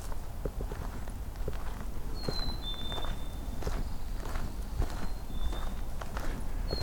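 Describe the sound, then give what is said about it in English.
Footsteps of someone walking outdoors on a birding walk: a steady run of soft, crunchy steps, with a few faint, high bird whistles above them. “Looks like I have to walk a little further to get to the grouse.”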